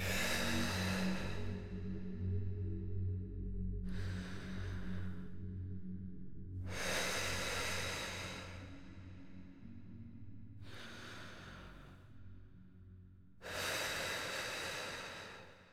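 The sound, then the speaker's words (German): Slow, deep breathing in and out, with about five long, airy breath phases that alternate in strength over a steady low drone. “Entspann dich. Atme tief ein und aus.”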